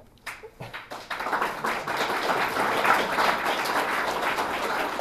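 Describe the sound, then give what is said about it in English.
Audience applause following a scientific talk, beginning with a few scattered claps and then swelling into steady, dense clapping that holds to the end. “so the applause should be for these guys who are actually doing a lot of the hard work”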